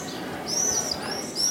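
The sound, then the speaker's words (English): Swifts call at their nests in the cracks of an ancient religious site's wall, giving a few thin, drawn-out, high-pitched screeching notes over a steady low hiss. “the swifts fly nearly 3,000 miles to reach this spot.”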